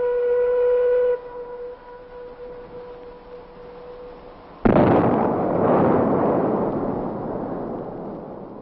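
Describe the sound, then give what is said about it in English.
Dynamite blast beginning construction of Glen Canyon Dam in 1956: a steady siren-like warning tone sounds first, then a single sudden loud explosion bursts out and its rumble slowly fades. “In 1956, these men were rewarded for their efforts as the first blast began the construction of the giant Glen Canyon Dam.”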